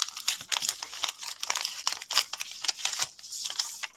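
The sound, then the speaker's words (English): A paper envelope is torn open during an awards announcement, giving many quiet crinkling rustles and short ripping bursts in an irregular stream, faint and without voices. “so I'm going to open the envelope now.”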